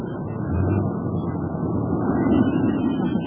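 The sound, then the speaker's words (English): An airplane comes in to land, its engines a steady, low droning rumble with gentle swells in loudness and no distinct bumps. “Well, here we go. We're landing.”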